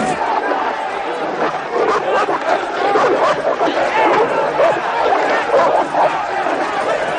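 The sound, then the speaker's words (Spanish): Dogs fighting in a crowded venue full of betting spectators. A dense, loud crowd roar of chatter and shouting runs throughout, with occasional barks breaking through the din. “Nick llega a una zona del local donde está teniendo lugar una pelea de perros.”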